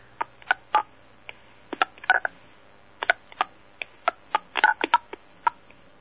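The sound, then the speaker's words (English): Touch-tone dialing beeps as a phone number is punched in: many short two-tone bursts with sharp clicks, coming in an uneven, hurried rhythm with brief gaps, fairly faint and with no talking. “So let's just give it a call.”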